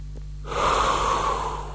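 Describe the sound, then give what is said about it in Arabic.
A slow, steady exhale through the mouth during a breathing exercise, like blowing out a candle: one airy breath that swells in after half a second and holds evenly to the end, with no talking. “اتنفس بنفس الطريقة دي أثناء التجربة، تعال نعملها مع بعض. جاهز؟ دلوقتي هنبتدي التنفس”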